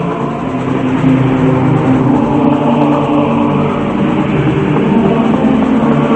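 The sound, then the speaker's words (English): A steam train with passenger cars crosses a long bridge at night, producing a loud, continuous rumble with a dense metallic rattle that holds steady throughout. “The train moves across a long bridge, over a road far below, and continues through the night, yellow lights shining from the passenger car windows.”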